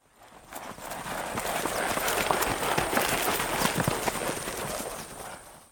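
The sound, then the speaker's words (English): Hoofbeats of frightened zebras running away: a dense, steady stream of rapid thudding hoof strikes that builds in quickly, holds an even loudness for several seconds, then fades out at the end. “The zebras are scared and they run away.”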